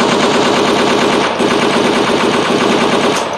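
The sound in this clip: Automatic gunfire from a video game blasts in a dense, continuous stream of rapid shots, loud and unbroken for the whole stretch.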